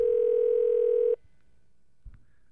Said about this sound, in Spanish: Vamos a llamarlo ahí. Vamos a ver si me contesta.